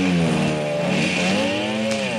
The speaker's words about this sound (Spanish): Dos policías suben a las motos y se van.